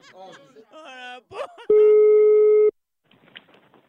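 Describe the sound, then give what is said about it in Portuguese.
A telephone call being placed gives one loud, steady ringback tone lasting about a second, with people talking just before it and faint voices after. “É o seguinte, eu vou ligar pra Giselda.”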